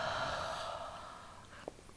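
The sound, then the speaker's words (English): A long breath is let out through the mouth during a yoga session, heard as a soft, breathy rush that slowly fades, followed by a brief faint click. “Get a breath in and let it out through your mouth.”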